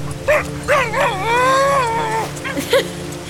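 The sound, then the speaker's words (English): A dog yelps and whimpers: a few short, high yips surround a long, wavering whine that bends in pitch, all fairly loud with no talk. “What's that sound? Doggo!”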